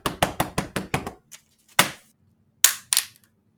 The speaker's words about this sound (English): Let's try a window. I think it's locked, guys. Try to break it.